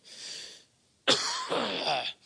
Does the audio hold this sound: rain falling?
no